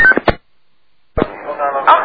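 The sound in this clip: A telephone number being dialled: a few short touch-tone keypad beeps in quick succession, then a brief silence before a voice comes in.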